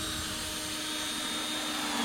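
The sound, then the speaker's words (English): A power drill drives screws into a wooden canvas stretcher frame joined with wood glue. Its motor gives a continuous, steady whirring whine that ends in a short, louder burst. “put it together and with wood glue, then put the screws into it.”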